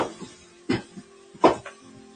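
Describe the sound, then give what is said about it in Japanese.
Chunks of potato dropping into a cooking pot, added after onions and carrots: a few dull, hollow thuds, two of them louder, separated by short quiet gaps. “はい、じゃがいも投入終わり。ってことで、今、玉ねぎ、人参、じゃがいもを順番に入れました。”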